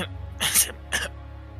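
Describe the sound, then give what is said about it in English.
Two short coughs from a person: a fuller, louder burst followed by a briefer second one. Both are breathy and rough over a quiet low hum. “Sorry, had a little cough.”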